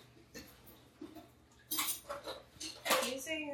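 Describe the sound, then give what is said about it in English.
Y-shaped vegetable peeler scraping the skin off a butternut squash: a few rough, rasping swipes that grow louder in the second half, mixed with light kitchen clatter. “So I'm gonna get started with the butternut squash. The oven. Now I get to peel this bad boy.”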